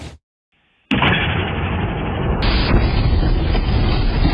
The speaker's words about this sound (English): A massive boom shaking buildings. NASA this morning confirming it was a meteor breaking up 40 miles above the Earth.